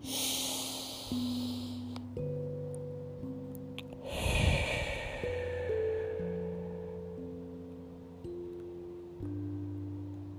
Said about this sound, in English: Feel it and then breathe. Begin.